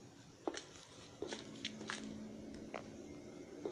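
Footsteps climb stairs in the video game Granny, a few soft, uneven thuds spaced irregularly over a faint steady hum.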